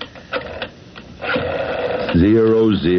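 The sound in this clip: Telephone dialing to call the operator: a short run of mechanical clicks and whirring ticks, followed by a voice speaking.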